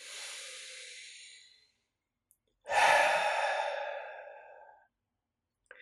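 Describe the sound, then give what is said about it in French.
Two long, deep breaths taken during a guided breathing and body-awareness exercise, each a breathy, airy rush lasting a couple of seconds, the second louder and fuller, with silence between and no talk. “Prenez le temps de prendre trois grandes respirations profondes.”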